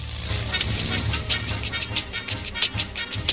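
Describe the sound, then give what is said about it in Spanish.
A human voice imitates a train, puffing out many rhythmic, breathy chugging bursts in a quick, regular beat with a low rumble beneath. “Y estaba haciendo ahí el ruidito del tren. Ahí viene que se nos lleva.”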